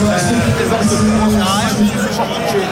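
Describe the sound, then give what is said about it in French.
Loud crowd noise fills the streets of Lens during a football celebration: a dense, unbroken roar of many voices and shouting that stays high throughout and swamps any single speaker. “Je vais te couper parce que malheureusement, il y a trop d'ambiance, on n'arrive pas à entendre ce que tu nous dis.”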